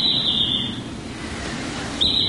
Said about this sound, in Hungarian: A mocsárvilág lakója a réti cankú is.